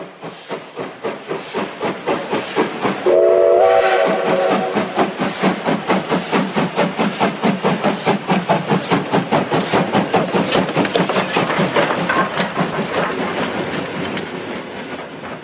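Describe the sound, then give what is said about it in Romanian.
A locomotive bound for the North Pole rumbles along in a fast, steady chugging rhythm, with hissing steam and clattering wagon wheels. A brief whistle sounds near the start, and the train stays loud throughout. “Imaginați-vă că auziți scrâșnetul continuu al roților vagonului în care ne aflăm și duduitul puternicei locomotive care ne poartă spre Polul Nord.”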